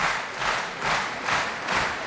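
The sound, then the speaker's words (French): A concert audience at La Roque d'Anthéron applauds an Argentine pianist after a piano recital. The clapping is broad and dense and swells in regular rhythmic pulses, as if the crowd claps together in time. “Et vous entendez le public de la Roque d'Anthéron conquis par le pianiste argentin”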